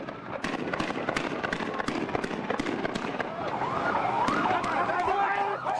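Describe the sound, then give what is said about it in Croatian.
Sharp bangs of gunfire crackle repeatedly during clashes between Palestinians and Israeli troops, with a wailing siren rising and falling in the later part over a continuous din of voices. “Izraelom i palestinskom teritorijom ponovo odjekuju pucnjevi, granate, sirene i vika.”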